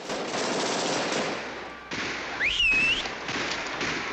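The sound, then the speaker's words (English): Rapid automatic fire from a Tommy gun and police weapons during a Bonnie and Clyde film shootout, a loud, sustained barrage with a brief break near the midpoint and a short high whistling tone as the firing resumes. “Grabs his Tommy gun as the police open fire, smashing Bonnie's reflection in the mirror.”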